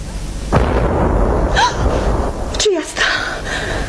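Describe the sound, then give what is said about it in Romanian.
Cannon salvo fired in salute as a merchant comes down from his ship: a loud boom at the start followed by a sustained rumbling roll that stays loud to the end. “Cine știe ce negustor îngânfat coboară de pe vasul său și în cinstea lui se trage o salvă.”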